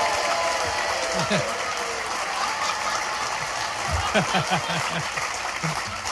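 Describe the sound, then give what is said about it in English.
Audience applause and cheering as a comedian is welcomed on stage at a live comedy show, a dense, steady roar of clapping throughout with voices mixed in. “Look at her hogging my applause.”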